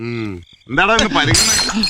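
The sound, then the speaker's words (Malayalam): A glass bottle breaking: a bright, scattered shatter bursts out amid loud voices, following a sustained vocal sound and a short pause. “ഒരു കുപ്പി പൊട്ടിയതാ സാറേ.”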